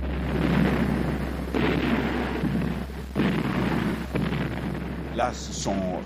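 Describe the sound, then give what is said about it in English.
Bombs exploding during a heavy aircraft bombing raid over Le Havre, with hundreds of planes dropping high-explosive loads: a dense, continuous roar of overlapping booms and rumbling blasts, with several stronger bursts standing out along the way. “So this time, there were 271 aircraft dropping around 1,500 tons of bombs, only with far fewer incendiaries this time.”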